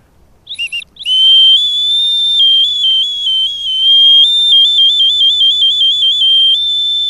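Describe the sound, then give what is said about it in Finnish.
A star-patterned two-tone willow whistle gives a few short high toots, then a long, loud, shrill note that warbles between two close pitches. “Se ei ole kuin tommonen 10-senttinen. Ei. Tähtikuvioinen kaksiääninen pajupilli.”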